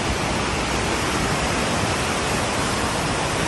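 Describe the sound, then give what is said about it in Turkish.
Floodwater roars from a stream that overflowed after a heavy downpour in Giresun's Keşap district, turning streets into lakes. The rushing hiss is loud and steady throughout. “Dere taştı, caddeler, sokaklar göle döndü.”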